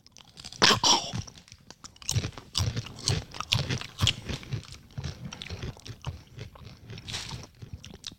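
Crunchy Mexican Sabritas Rancheritos tortilla chips are chewed in many sharp, irregular crunches and bites, loud and close, running on without talk.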